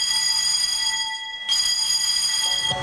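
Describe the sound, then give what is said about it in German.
The arrival signal bell at the Storskog border post near Kirkenes, Norway, rings as a bright, sustained tone rich in overtones, cuts out briefly, then resumes steadily, with no speech. “Und entsprechend das Ankunftssignal im Grenzposten von Storskog bei Kirkenes noch viele Male zu hören sein wird.”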